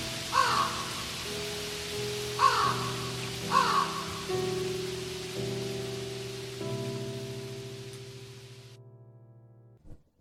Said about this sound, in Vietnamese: Trên đầu ông, mưa vẫn rơi và tiếng quạ kêu sao mà tan tóc tới vậy.